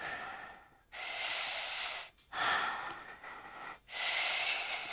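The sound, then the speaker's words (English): Slow, deep breathing: quiet, airy rushes of air swell and fade across several long cycles separated by short pauses, with no talk. “Now, what next? Deep breaths.”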